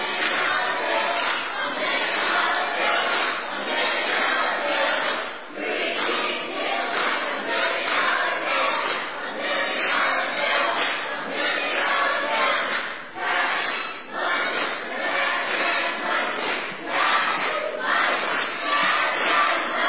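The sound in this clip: Loud audience cheering and shouting from the green team, a crowd competing on volume and participation. The roar of many voices holds strong for the whole stretch, swelling and dipping with a few brief lulls.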